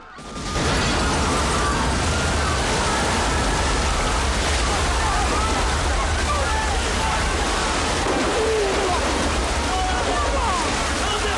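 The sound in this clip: Water gushes and cascades from shot-out windows of a large tank into an observation room. A loud, dense, steady rushing roar with sloshing runs throughout without letting up.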